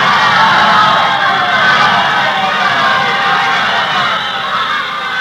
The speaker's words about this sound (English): Crowds in the Loop, crowds on the Boulevard. Gaiety and neon, laughter and the blare of horns. Headlines cheerful as a Christmas poster. Noise and glitter.